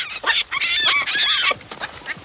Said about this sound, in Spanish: Después, en el campo con el capataz, unos monos pasan chillando.